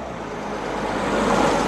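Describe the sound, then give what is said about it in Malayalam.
A car arriving at night: a broad, steady rush of engine and road noise that swells gradually louder toward the end, with no voices. “അല്ല, ഇതെന്താ ഈ സമയത്തൊരു car?”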